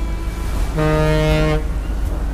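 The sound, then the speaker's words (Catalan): A ship's horn sounds once at the harbour mouth, a single steady, deep, rich blast lasting nearly a second over a constant low rumble. “Pita el barco indicant que som ja a la boca del port.”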